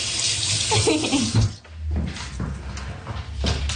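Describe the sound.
Water runs from a tap for hand washing at a small children's washroom sink, a steady rushing flow that dips briefly partway through and then carries on, with no talk.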